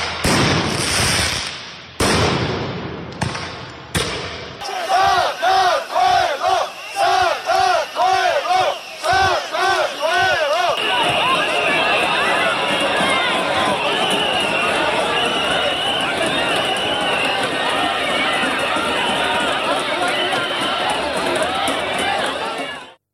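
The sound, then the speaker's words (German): A street protest in Tbilisi, the Georgian capital, opens with several sharp bangs. A crowd then chants in a rhythmic pattern, giving way to a dense, sustained roar of voices cut by shrill, piercing whistles that continues to the end. “Protestrufe, Trillerpfeifen, Gummigeschosse und Tränengas. Was man hier hört, sind die Proteste auf den Straßen der georgischen Hauptstadt Tbilisi,”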